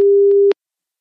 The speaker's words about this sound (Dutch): ik ga hem eens bellen. Kijk of ze opneemt.